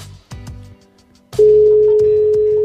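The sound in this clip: Telephone ringing tone on a call placed to the Albaicín: after a short stretch of quieter, broken sound, a loud steady tone starts and holds one even, mid-low pitch to the end.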